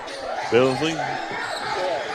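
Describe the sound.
A basketball bouncing as a player handles it under defensive pressure during a basketball game, heard as dull, repeated thumps beneath a commentator's voice.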